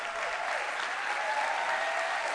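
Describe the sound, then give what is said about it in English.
Audience hand clapping at a church service honoring newly ordained deacons, a steady, dense wash of applause that holds at an even level throughout without any speech. “Come on, give them a big hand clap. Honor them with your hand clap.”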